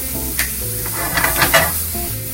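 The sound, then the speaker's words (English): A fork whisks two eggs in a bowl, giving a steady wet stirring swish with a few light scraping taps, heard over a constant low hum. “So I'm gonna use my fork. Whisk these eggs up real quick.”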